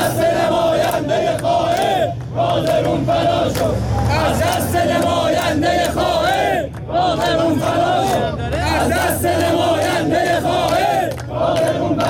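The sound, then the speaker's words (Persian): Many protesters chant slogans together against government officials and the state broadcaster at the city prayer ground in Kazerun. The loud, rhythmic massed shouting continues steadily throughout. “معترضان پرشمار در مصلای شهر شعارهای علیه مقامهای حکومتی در کازرون و صدا و سیما سر دادند.”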